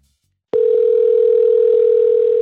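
A telephone dial tone for placing a call starts abruptly after a short silence and holds as a loud, steady, unbroken tone at a single pitch until the end.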